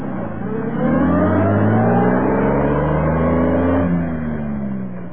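Car engine revving hard as it accelerates away at top speed toward a hospital, a loud, sustained droning roar whose tones climb steadily before easing off near the end.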